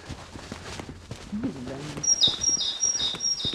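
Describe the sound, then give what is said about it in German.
A tit calls loudly and repeatedly, a few sharp, high chirping notes coming in quick succession in the second half, while people talk. “Guck mal, eine Meise. Wie laut die ist.”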